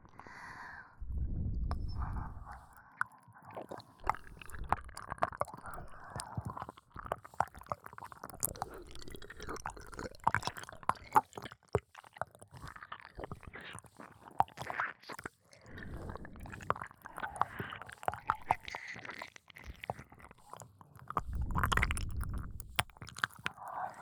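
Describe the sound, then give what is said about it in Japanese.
Wet ear-licking sounds: soft squishing and smacking mouth noises run almost continuously, with deeper breathy bursts near the start and end and no talking. “お耳を舐めながら”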